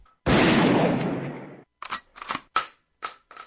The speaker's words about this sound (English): Is it supposed to be there? No. Well, then shoot it.